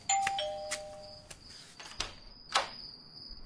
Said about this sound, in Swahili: na ghafla kengele ya mlangoni inalia.